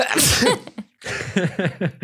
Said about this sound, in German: ich muss niesen.